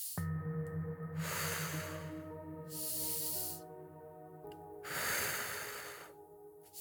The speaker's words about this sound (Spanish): Inhala, exhala. Hacia adentro y déjalo ir. Profundas, circulares, sin pausa.